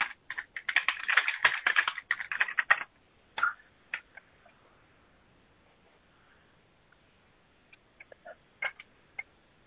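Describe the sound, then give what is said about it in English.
Fingers type quickly on a computer keyboard, a dense run of clicks for about three seconds, then sparse single keystrokes separated by pauses. “I'm going to just type in. We are refreshing.”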